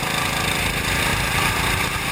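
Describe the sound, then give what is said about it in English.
A go-kart engine at full throttle accelerates out of a bend, a continuous buzzing engine drone with steady harmonics and no voices. “From here, throttle to the floor, full speed coming out of the bend and letting it drift out all the way to the outside.”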